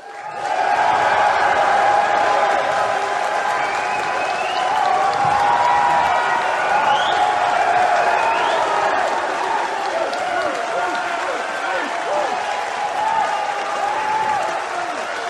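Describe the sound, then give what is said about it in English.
A crowd at a professional wrestling event cheers and applauds in a sustained, loud wash of clapping and shouting that holds steady for the whole stretch, with whistles rising above it. “I want you to make some noise for how much you respect professional wrestling.”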